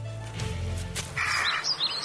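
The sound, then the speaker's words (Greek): Calls of a rare lesser kestrel: a few quick, shrill, high-pitched chattering notes arrive in the second half, faint and alone. “Αυτό είναι σπάνιο Κυρκινέζι, άσχετε.”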